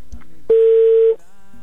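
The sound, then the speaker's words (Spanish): A single ringback tone sounds on a telephone line as an outgoing call connects: one steady, mid-pitched electronic beep lasting about half a second, loud and alone, followed by a faint hum. “ya entró otra vez la llamada, ya está sonando”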